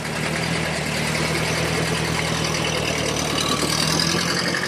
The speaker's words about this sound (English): In a dream, he starts the car. Then sits in the driver's seat and drives away.